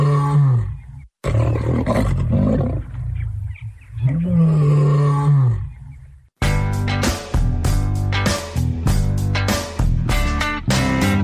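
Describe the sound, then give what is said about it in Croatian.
A young lion cub roars loudly and alone, giving a few drawn-out growling roars separated by short pauses, then a run of shorter, choppy roaring calls. “Kakav lav, strašan lav. Pa nije baš strašan, ali bit će kad poraste.”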